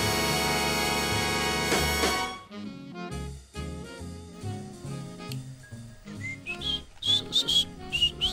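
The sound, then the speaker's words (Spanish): Whistled melody over a full period dance-orchestra arrangement. Sustained, bright instrumental music gives way to pitched whistling phrases that stand out in the final seconds. “¿Ahí está chiflando usted?”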